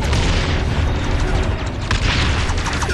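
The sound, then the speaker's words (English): Booming sci-fi explosion as a photon torpedo launched from a mothership strikes a starship: a dense, sustained roar of rumble and crackle that fills the whole stretch, with no talk. “The Section 31 mothership launches the photon torpedo at Enterprise. We follow it as it impacts but lodges in the hole near the bridge.”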